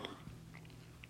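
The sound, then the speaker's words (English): Soft, crunchy chewing of candy: a few faint bites and moist munching sounds, quiet and alone. “And now I'm going to eat some more candy. So good. So delicious. Yum.”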